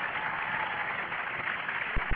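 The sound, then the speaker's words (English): A church audience claps their hands in praise, a faint, steady patter of many hands with two dull low thumps near the end. “Clap your hands and give God some praise.”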